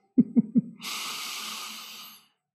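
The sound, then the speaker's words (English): One deep breath is drawn in, a breathy hiss lasting about a second and a half. It comes right after three short, low thumps and has no talk over it. “All right, deep breath in for me.”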